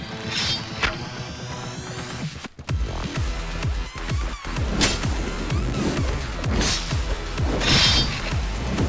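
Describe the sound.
A flaming lightsaber in a video game swings and cuts through sword robots: repeated swooshing swipes mixed with hard thwacks, crashes and metallic impacts in an uneven rhythm, with no talking.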